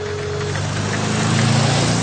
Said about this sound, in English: They are walking along the road, when suddenly a magnificent motor car drives past.